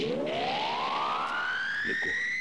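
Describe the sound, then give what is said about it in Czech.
A roar like a ship's siren spreads across the land from a main tower; one loud, continuous tone with strong harmonics rises steadily in pitch from start to finish. “A v zápětí se krajem rozlehl řev podobný řevu lodních sirén.”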